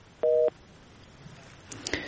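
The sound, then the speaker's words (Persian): Telephone busy tone on a caller's line that has just dropped: one short, steady two-pitch beep, followed by a few faint clicks and rustles against a quiet hiss. “متاسفانه شنونده دیگه ما هم تماسشان قطع شد.”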